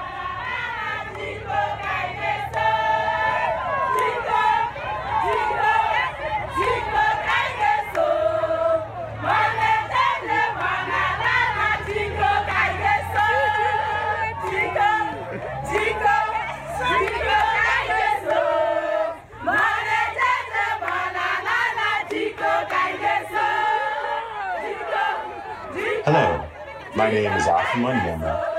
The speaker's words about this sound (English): What you hear is the sound of women in the town of Enugu celebrating the opening of a new maternity center that GENCO built so that they can receive the high-quality care they deserve during pregnancy.